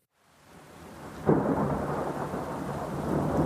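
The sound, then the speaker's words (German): Thunderstorm with rain as a hurricane passes: deep rolling thunder swells in from silence and keeps rumbling loudly over a steady hiss of falling rain until the end. “Der Orkan zieht in die Ferne davon.”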